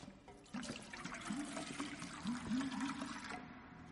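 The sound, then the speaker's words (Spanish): Water is poured into a silver cup with a soft trickling gurgle and a few small rising glugs, faint and continuous throughout. “Coge una copa de plata y la llena de agua.”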